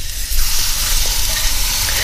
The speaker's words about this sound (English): Okay, one more flip so we get a nice grill mark on the cut side.